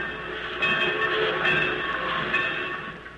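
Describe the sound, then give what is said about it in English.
Trains work in a busy small-town railroad yard, making a continuous dense rumble and hiss with a steady metallic whine on top and no pauses. “Everywhere you can hear the busy hum of industry in the sawmill, in the railroad yard,”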